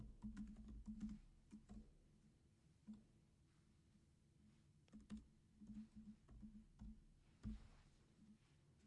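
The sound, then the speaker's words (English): Typing on a computer keyboard gives a faint, irregular stream of soft clicks and taps, with small bursts of quicker keystrokes between brief pauses and no voices. “Somebody just go ahead and type that in the comments. Extend the legacy. I'm going to do that as well.”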